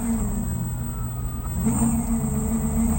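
Go-kart engine drones steadily as the kart drives along a street. The low, continuous motor noise holds throughout and grows slightly louder in the second half.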